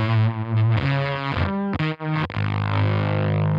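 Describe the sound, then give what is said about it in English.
A fuzz pedal with gain and overload set close together gives a thick, heavily distorted guitar tone that swells and wobbles, then sucks out into brief dropouts before settling into a sustained, buzzing note. “So like when you have the gain and the overload at like that distance, that's when you get that sucking sound.”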